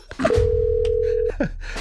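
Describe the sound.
A telephone ringback tone sounds while calling someone: one steady, mid-pitched tone lasting about a second, with brief breathy voice sounds just before and after it.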